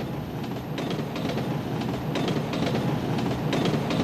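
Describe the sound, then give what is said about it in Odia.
A train travelling toward Berhampur rumbles steadily along the track, its low drone carrying a faint rhythmic clatter of wheels throughout. “ସାଙ୍ଗେ ସାଙ୍ଗେ ଟ୍ରେନ୍ରେ ବରହମପୁର ଯାଇ ପହଞ୍ଚିଲା ଆକାଂକ୍ଷା ପାଖରେ”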